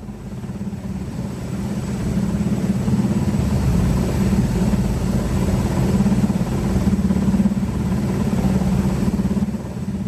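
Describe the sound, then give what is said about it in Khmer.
A military helicopter runs ahead of a joint naval exercise between two countries' navies, giving a steady, loud, low engine drone that holds without pause for the whole stretch. “ឧទ្ធម្ភាគចក្របានចាប់ផ្ដើមប្រតិបត្តិការមុនគេមុននឹងកងនាវិកនៃប្រទេសទាំងពីរធ្វើលំហាត់រួមគ្នា”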